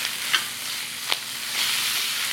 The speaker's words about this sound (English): When the skillet is smoking, it's time to throw it in. Okay, and in go the onions. Give this a stir.